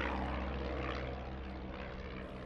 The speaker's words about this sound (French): dans le ciel, on entend le vrombissement d'un moteur. C'est un avion qui approche.